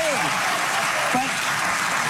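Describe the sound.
Audience applause, a loud, even wash of many hands clapping that runs throughout, with brief voices rising over it near the start and again in the middle.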